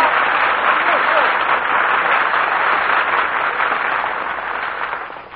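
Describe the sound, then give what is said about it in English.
Applause from a studio audience at a radio comedy show, a dense, steady roar of many hands clapping that holds evenly before tapering off slightly at the end. “Gee, was all that applause for me? Yes, sir, Dennis. Every bit of it.”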